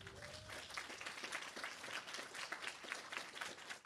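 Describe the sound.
Audience applause welcoming an MLA as a speaker: dense, steady clapping from many hands, loud and continuous throughout with no pauses.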